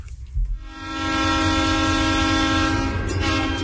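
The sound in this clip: A train on the rails sounds a loud, sustained horn. After a brief rumbling start, the steady harmonic tone swells in and holds to the end.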